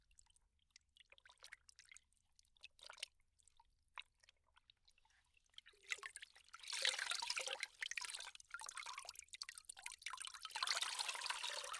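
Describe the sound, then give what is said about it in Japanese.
A towel is dipped into hot water, with faint, sparse drips and trickles at first, then steadier, louder sloshing and splashing through the second half. “タオルをお湯に入れて温めますからね。”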